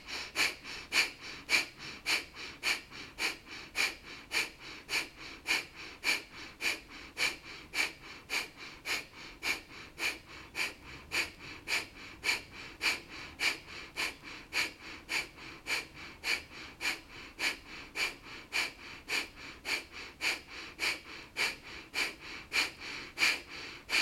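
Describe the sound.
Breath-of-fire breathing exercise: rapid, forceful nasal breaths in a steady, quick rhythm, many sharp puffs repeating evenly throughout, faint and alone without talk.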